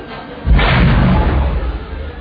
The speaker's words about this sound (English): They're gonna blast us into atoms! We've lost the shield!